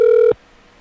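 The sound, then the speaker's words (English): A Skype audio call connecting tone: a single steady, bright electronic tone with clear overtones, held briefly and then cut off abruptly into near silence. “It always sounds like the Mario Brothers video game when I call.”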